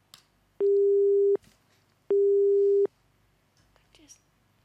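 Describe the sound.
A telephone busy tone after a call disconnects sounds as two long, steady beeps at a single pitch, separated by a short gap, over faint background noise.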